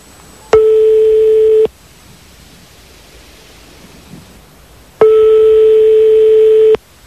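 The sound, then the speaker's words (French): Telephone ringing tones while a number is being called: two long, steady electronic tones of the same pitch, separated by a pause of several seconds of faint hiss. “On est en train de faire le numéro de téléphone donc de Christine”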